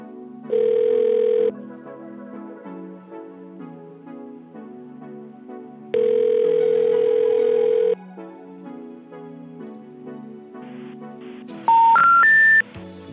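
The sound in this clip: Telephone tones over soft background music: two long, steady tones well apart, then three quick beeps stepping upward in pitch at the end.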